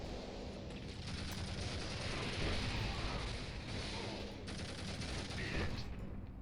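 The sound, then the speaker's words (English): Rapid gunfire in a video game aimed at heavily armored enemies: a dense, continuous rattling barrage that stays loud and steady from start to finish. “Got some heavy armors up ahead. Shooting some shots at them.”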